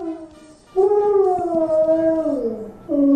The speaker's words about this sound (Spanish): ¡Hizo el ruido de una ballena!